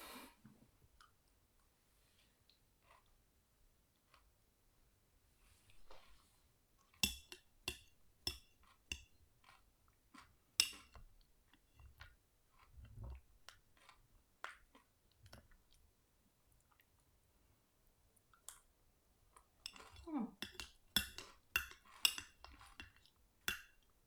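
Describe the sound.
A spoon clinks against a dish as someone eats ice cream with cornflakes, making many faint, irregular taps, scrapes and soft crunchy chewing sounds, with denser bursts of clicking later on and no talking.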